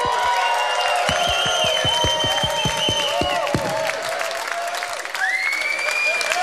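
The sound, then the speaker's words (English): Concert crowd in Groningen cheering and applauding, a loud roar with high whistles over it and a steady run of rhythmic unison claps through the middle, then continued cheering and whistling. “Groningen, I fucking love you. Make some fucking noise for yourself.”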